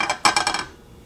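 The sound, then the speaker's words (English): Eggs cracked into an oiled pan: a quick run of several sharp, crisp cracks and crackles over about half a second, fading into quiet. “So it's all ready to go. And now I'm gonna crack my eggs.”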